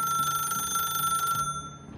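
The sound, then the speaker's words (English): A telephone bell rings in one continuous rattling burst lasting about a second and a half, then stops. The ring is fairly quiet overall and no voices are heard. “But before she could even glance outside, the phone rang again.”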